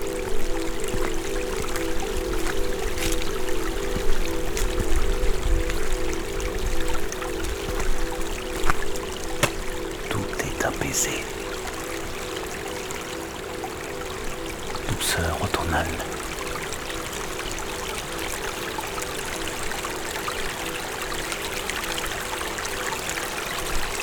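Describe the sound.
Gently flowing water at nightfall, a steady soft rush that runs unbroken throughout, with a low continuous hum beneath and a few brief splashy clicks rising above it.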